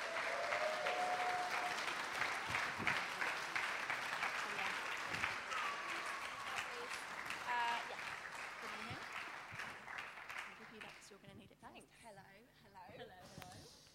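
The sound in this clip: A church audience applauds as two women are welcomed to the platform for a Kids Church segment. Loud, full clapping starts strong, gradually thins and fades, and a speaking voice comes in near the end.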